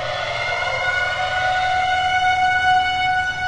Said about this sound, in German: Überall im Raumschiff heulen die Sirenen.